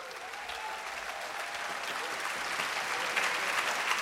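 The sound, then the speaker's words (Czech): Audience applause for the arranger at a jazz evening: a soft, even wash of many hands clapping that swells slightly toward the end. “A já bych teď chtěl veliký potlesk pro toho člověka, protože to, co jste viděli do půlky, to všechno aranžoval Ryško Šanda.”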